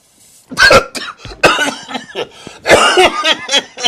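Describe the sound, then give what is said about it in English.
A person coughs hard in a fit after drawing a mouthful of smoke: a run of harsh, rough bursts, some clustered in quick pairs, with short gaps between the louder spells. “I was like coughing my ass off.”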